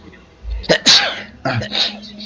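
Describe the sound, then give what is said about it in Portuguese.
A person sneezes during a tabletop role-playing game session: a sharp, loud burst, followed by a few shorter breathy sounds and some voice, against low background noise. “E eu vou espirrar.”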